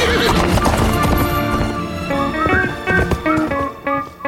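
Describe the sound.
Shadowfax, the horse from The Return of the King, gallops with a loud, rapid clatter of hooves and gives shrill neighs over a dense, busy background.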